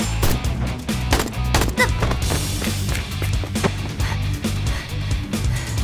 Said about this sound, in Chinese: 对手射击的时机简直太精准了，刚刚好就卡在我射击的那一瞬。